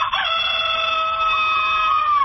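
A hen calls out in one loud, drawn-out harmonic cry lasting about two seconds, held on a steady pitch from start to finish.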